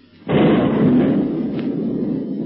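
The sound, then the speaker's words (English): Thunder-like bombardment from a boat's gun shelling a cave: a loud, broad rumbling roar bursts in abruptly and holds steady, then eases slightly toward the end. “a sound like thunder reaches their ears. The octopus boat is shelling the cave, and as the bombardment continues”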